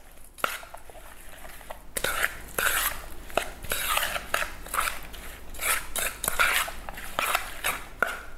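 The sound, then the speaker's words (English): Sugar and honey are quickly mixed in a dish, with a utensil repeatedly scraping and clinking against it in an uneven, busy rhythm, with no talk. “And now you're just gonna give this all a quick mix.”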